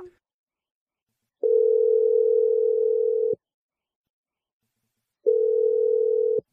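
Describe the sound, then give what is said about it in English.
A telephone line gives a steady, mid-pitched electronic tone while a number is dialed: two long, even tones of about two seconds each, separated by silence. “He's loyal to Megan, so let's call her and see what she has to say. Here we go. I'm the dialing number right now.”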